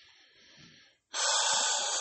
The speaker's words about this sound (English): Hold on, I'm just going to take a breath.